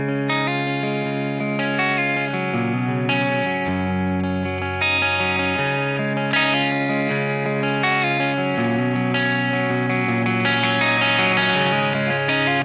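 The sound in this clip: Electric guitar played through an amp preset on a Neural DSP Quad Cortex: a chorus-laden, slightly distorted tone with sustained chords that change every couple of seconds, played steadily and loud, with no talking.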